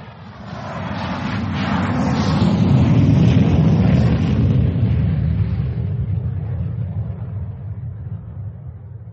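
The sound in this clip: Roar of a British Airways airliner taking off on a flight to Dusseldorf: a loud, low rumble that swells over the first few seconds, holds, then slowly fades. No talk.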